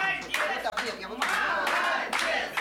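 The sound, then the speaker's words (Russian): An audience at a regional festival for visually impaired people claps as a diploma is presented in a concert hall, in uneven surges of applause with voices over it. “Пожалуйста, под бурные аплодисменты зрителей.”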